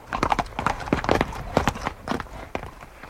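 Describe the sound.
Horse hooves clip-clop at a walk: many sharp knocks on a hard surface in an uneven, unhurried rhythm, fairly loud and without voices.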